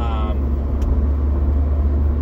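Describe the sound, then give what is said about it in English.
A car being driven, its engine and road noise forming a steady, continuous low rumble with no breaks. “Sorry, I'm driving as usual.”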